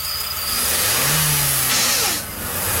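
A car engine revs hard while the car is stuck on a muddy road. It gives a loud, continuous drone whose pitch climbs and then holds high, with no voices.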